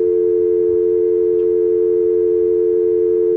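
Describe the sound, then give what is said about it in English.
A telephone busy signal sounds on a call-in line as a loud, continuous, steady mid-pitched tone heard alone throughout. “Now we have a busy signal. No. Now I have a big busy signal.”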